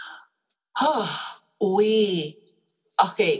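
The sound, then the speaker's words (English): A deep breath drawn and let out: breathy, partly voiced sighing in a few separate bursts, with silence in between. “So let's just take a deep breath and realize,”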